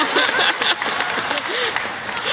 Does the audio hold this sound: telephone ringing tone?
no